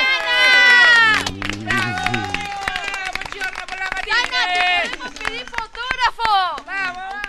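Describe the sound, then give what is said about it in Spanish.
A crowd outside cheers enthusiastically, with loud shouts, whoops and high excited voices rising and falling over scattered clapping. The cheering is lively and continuous, with bursts of louder yelling. “A ver, un aplauso desde afuera. A ver, espere. Un aplauso desde afuera, por favor.”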